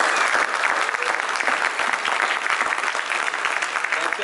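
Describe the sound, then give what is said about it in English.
Audience clapping and applauding at an event, a dense, even burst of hand claps that stays steady and fairly loud throughout. “you guys to make some noise and give yourself a big hand for coming to the home MVC.”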